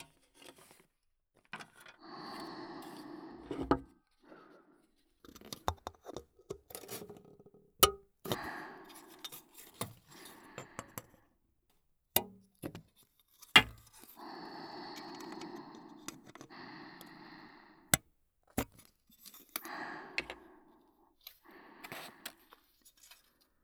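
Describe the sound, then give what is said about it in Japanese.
Small parts being cut: many crisp snips and sharp clicks in irregular clusters separated by short pauses, quiet overall with no talking. “こっちは細かい部品が多いので、切る音が多”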